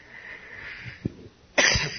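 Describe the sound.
A person coughs with something caught in the throat: a short, muffled low burst, then a louder, harsh cough near the end over a faint background.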